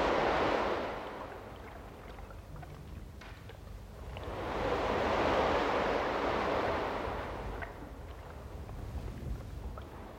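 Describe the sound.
Ocean waves roar at sea around a lifeboat on the Black Sea. Two broad swells of rushing, hissing water noise rise and ebb, mixed with wind, and no voices are heard.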